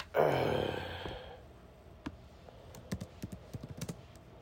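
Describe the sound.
Typing on a computer keyboard: a run of quick, uneven key clicks that follows a short breathy burst of sound at the start, fairly soft and without talk.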